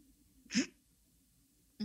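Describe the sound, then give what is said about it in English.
A voice imitates a fart-like puff of air escaping from the crack between gates: one short, breathy burst in the middle, then quiet until another sound begins right at the end. “Oh, you might say a fart. The gates tooted a little bit.”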